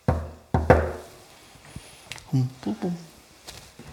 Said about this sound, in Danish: Jeg prøver lige en dør til.